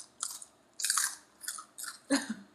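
Crunchy chewing of a dry pork rind, with five crisp, bright bursts of biting and mastication in an uneven rhythm, the second burst longest and loudest, and no talking.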